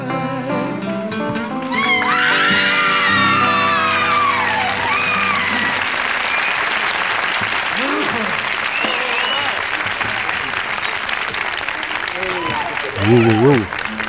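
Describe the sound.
Fans scream, cheer and clap at a televised rock-and-roll concert. As music fades at the start, a loud, sustained roar of applause rises, carrying shrill, high screams that rise and fall throughout, with a louder burst near the end.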